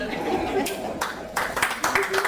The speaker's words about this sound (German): Oh, ihr klatscht schon, wenn ich nur was trinke?